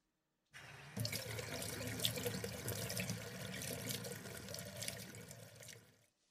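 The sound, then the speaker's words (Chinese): Tap water running to fill a bath, a steady rushing splash that starts abruptly and keeps an even, hissing flow for several seconds before tapering off. “你稍等一下，我帮你放洗澡水。”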